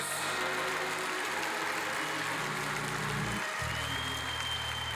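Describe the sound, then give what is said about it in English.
A church audience claps its hands in praise, producing dense, steady, loud applause that runs without pause for about five seconds, with no voices. “Give the Lord a hand clap of”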